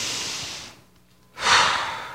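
A person breathing deeply: two long, breathy rushes of air separated by a brief pause, moderately loud and alone, with no talk.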